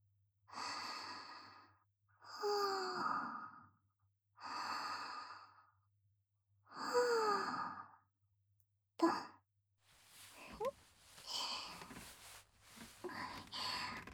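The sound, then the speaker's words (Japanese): Deep, slow breathing of a person lying down to relax: four long, soft, sighing breaths in an even rhythm with a faint voiced tone, then a short breath and quieter, uneven breathing sounds. “ごろんと転がり、力を抜いて、深呼吸。”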